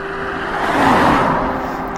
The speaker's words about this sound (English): Blue, small BMW, diesel, maybe a 3 Series.